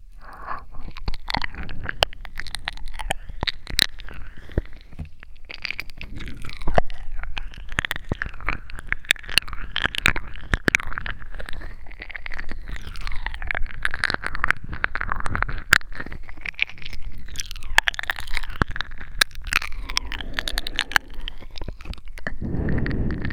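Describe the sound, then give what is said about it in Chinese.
Crunchy food being chewed and eaten gives continuous crisp crunching, with many rapid sharp bites and grinding chews repeating throughout at a steady, fairly loud level. “好好吃啊。主人，怎么吃都吃不够呢？”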